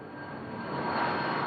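A plane engine roars steadily in the cabin as the aircraft prepares for takeoff. The even, rushing hum swells slightly louder partway through.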